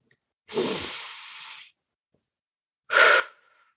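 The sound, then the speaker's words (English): A deep breath: a long, drawn-out inhale lasting about a second, then a pause and a short, forceful exhale, quiet and with no talk. “Take a minute, take some deep breaths.”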